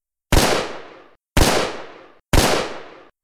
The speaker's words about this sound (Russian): Выстрел стража громом разорвал тишину, упредив прыжок падальщика.